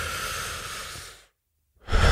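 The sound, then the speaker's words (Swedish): A deep, slow breath is drawn in, a long airy rush lasting over a second that tapers off into a short silence before another strong breath begins. “den bästa effekten som jag får, det är när det egentligen är väldigt djup och lite långsammare andning. Man verkligen drar in...”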